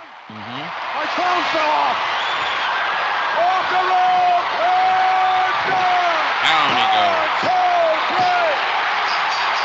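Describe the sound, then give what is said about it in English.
Wrestler Earthquake's power slam hits the ring as a heavy thud in the middle of a loud, sustained crowd roar, with excited commentary voices talking throughout. “And there it is, the Earthquake power slam.”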